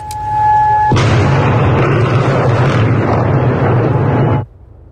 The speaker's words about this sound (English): That's the moment Bahrain's National Security Agency was struck by a missile.